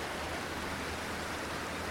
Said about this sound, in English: It's just a little ford here. So the water thunders over,